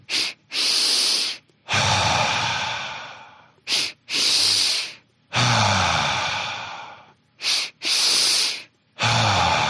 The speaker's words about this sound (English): 2-part breath is you're going to inhale quickly twice through the nose, and it'll look and feel just like this. So short first, long second.